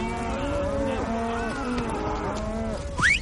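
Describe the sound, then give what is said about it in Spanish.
A large herd of cattle moos while cowboys drive it across a road on open plains; several long, overlapping lows sound in turn, followed by a short, sharp rising call near the end. “Unos vaqueros cruzan la carretera con un gran rebaño.”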